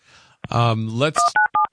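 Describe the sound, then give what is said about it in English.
Telephone keypad dialing tones: a few short, clipped two-note beeps in quick succession. A voice is heard just before them. “Oh, somebody's dialing in there.”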